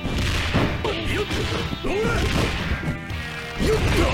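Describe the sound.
Punch impacts in a fighting video game, dense thuds and smacks crowding one another throughout, mixed with shouted character voices and other game effects.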